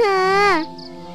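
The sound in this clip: A young child cries in one sustained wail lasting about half a second. The pitch rises slightly and then drops, and a quieter, fading tail follows.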